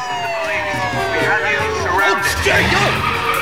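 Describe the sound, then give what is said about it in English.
Police squad cars pulling up, with wavering siren-like tones sweeping up and down through a loud, dense mix that stays steady throughout. “Squad cars pull up.”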